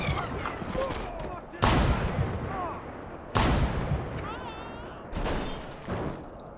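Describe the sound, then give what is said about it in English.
Sniper gunfire: three sharp, loud shots spaced roughly two seconds apart, each with a short decaying tail. Agitated voices can be heard between the shots. “It's a sniper. It's a sniper. Everybody get down. I can't see where to shoot.”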